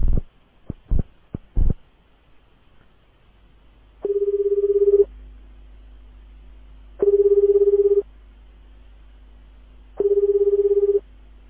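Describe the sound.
A telephone call being placed: a few quick sharp clicks, then three evenly spaced ringing tones, each about a second long, over a low steady hum with no talk.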